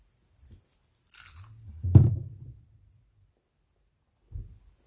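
Crispy taco-flavoured potato chips crunch between the teeth in a few short, brittle bursts. A faint rustle comes first, and the loudest crunch sits in the middle, all against near silence.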